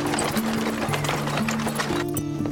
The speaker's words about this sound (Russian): Нам пора. Телега выезжает.